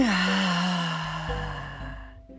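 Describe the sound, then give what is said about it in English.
A deep breath is let out as a long voiced sigh during a guided affirmation exercise. The sigh starts moderately loud, falls in pitch and slowly fades away. “take a deep inhale with me.”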